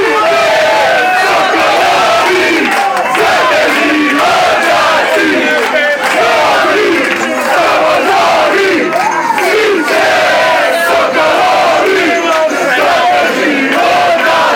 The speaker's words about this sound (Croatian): Mario Mandžukić pogotkom za 2-1 srušio je engleske snove. Cijela zemlja u deliriju. Navijači nisu štedjeli grla.